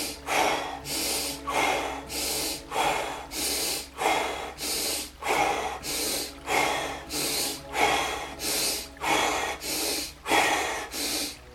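Rapid, forceful breaths from an energising breathwork practice, each in-and-out breath a loud, hissing rush of air. Many breaths follow in a steady, even rhythm with no pauses and no talking.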